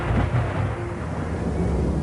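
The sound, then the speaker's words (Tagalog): Heavy rain pours down with thunder, a dense, steady roar of falling water over a deep, continuous low rumble, loud and even throughout with no voices. “bumuhos ang malakas na ulan.”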